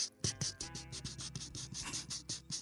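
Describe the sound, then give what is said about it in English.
Paper rattling as an index card is handled, a faint series of many soft, crisp scratches and rustles in an uneven rhythm, heard alone. “now for all you paper fetishists who like to hear the rattling paper, this is going to be a subtle pleasure because it's on an index card”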